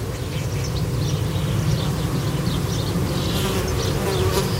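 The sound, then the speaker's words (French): Dense, steady buzzing of insects swarming inside an insect hotel on a very hot day, picked up with a parabolic microphone. A continuous loud drone and hum with scattered higher whines from individual insects runs throughout without a break. “Et donc là, vous approchez votre parabole de l'hôtel à insectes. On entend quand même que ça grouille, hein.”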